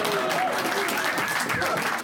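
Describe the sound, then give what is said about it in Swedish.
Warm applause welcomes a stand-up comedian in a packed basement venue in central Malmö, a thick, continuous wash of clapping from the crowd that holds steady and loud. “Låt oss välkomna Mackan in här med en riktigt stor och varm applåd.”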